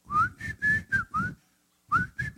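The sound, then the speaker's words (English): A man whistles a tune as he walks: five short, clear, fairly high notes, a brief silence, then three more, sounding alone. “he started to whistle and walk down the street.”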